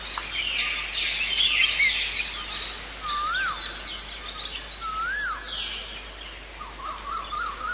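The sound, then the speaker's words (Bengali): Many birds chatter and chirp continuously in an old banyan tree at a crossroads in an ancient city, with clear whistled calls that rise and fall in pitch over a dense, busy chorus. “শত শত পাখির কলকাকলিতে মুখর হতো পরিমণ্ডল”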